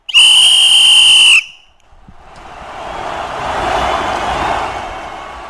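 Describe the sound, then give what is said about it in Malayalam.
A referee's final whistle at a World Cup football match: one loud, shrill, sustained blast of over a second, followed by a broad rushing noise that slowly swells and then eases. “റഫറിയുടെ അവസാന whistle മുഴങ്ങിയിരിക്കുകയാണ്.”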